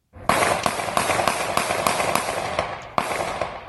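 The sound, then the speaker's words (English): Gunshots from a police officer's pistol, recorded on a phone video in South Carolina: a rapid string of many sharp, evenly spaced cracks over steady hiss, with one more shot after a slightly longer gap. “shows South Carolina police officer Michael Slager, who is white, shooting 50-year-old Walter Scott Black as Scott ran away.”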